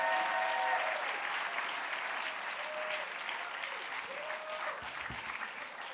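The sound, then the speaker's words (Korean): Church audience applause welcoming two pastors to the front. A steady, even round of clapping starts strong and eases slightly toward the end. “Let's welcome both of them. 한번 큰 박수로 환영해 주시기 바랍니다.”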